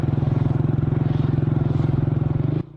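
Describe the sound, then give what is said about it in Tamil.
A vehicle being parked under a tree at the Tindivanam agricultural science centre idles with a steady, throbbing low engine pulse, then cuts off abruptly near the end, leaving a faint hum. “வண்டி அதோ அந்த மரத்தடியில் நிப்பாட்டுப்பா”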